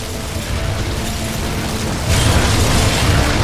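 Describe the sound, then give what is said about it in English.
Walls cracking and a house roof caving in make a dense, gritty crackling rumble with a deep low end. The noise is steady at first, then grows louder and harsher partway through. “Just then, they heard the walls crack and the roof began caving in.”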